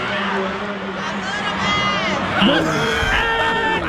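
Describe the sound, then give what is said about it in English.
An audience cheers and screams as actor Michael Ealy is announced with the cast: a loud, dense, unbroken roar of shrieks and whoops with high-pitched squeals on top, swelling slightly louder midway and continuing without pause. “And here is Michael Ealy gets announced. And listen to the audience, though. They wouldn't stop. This went on for about a minute or two.”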